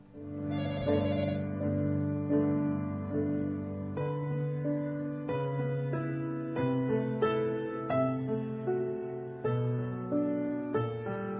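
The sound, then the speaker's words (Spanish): A telephone rings in a continuous, fairly loud multi-tone ring that holds steady for the whole stretch, with no talk over it. “ahí está sonando el teléfono, vamos a poner un poquito de música y lo atendemos.”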